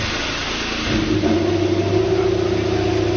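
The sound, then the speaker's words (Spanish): Engine roar from a Ferrari SF21 Formula 1 car fired up during preseason. A low, rough rumble swells into a louder, sustained, tonal roar that holds steady to the end. “Escuchen cómo ruge el Ferrari.”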